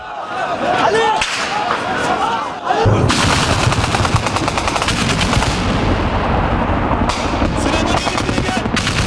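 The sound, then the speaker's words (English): Gunfire during a military coup attempt in Ankara: dense, rapid bursts of many shots in a continuous loud barrage, with sharp cracks layered over a rumbling wash throughout. “At the time, fighter jets were seen flying over the capital, Ankara, and parliament came under fire.”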